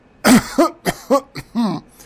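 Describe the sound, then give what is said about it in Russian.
A man clears his throat in several short, rasping voiced bursts with brief gaps between them, fairly loud and with no talk. “Декан откашлялся, как бы подчеркивая важность и ценность своего заявления.”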